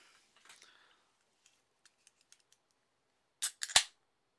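Another beer is opened: a few faint, scattered ticks give way near the end to a loud, tight cluster of sharp clicks and cracks, with no talk over it.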